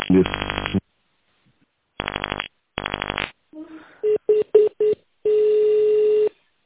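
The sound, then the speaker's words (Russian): Telephone keypad tones as an extension number is dialed on a call to a Moscow print shop's automated line: a few short electronic beeps, then a longer steady tone. “Если вы знаете внутренний номер сотрудника, пожалуйста, наберите его.”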